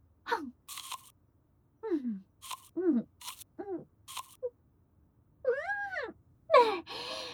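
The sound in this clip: Crunchy, nectar-filled food being bitten and chewed, with a few sharp crunches between drawn-out voiced moans and gasps of enjoyment.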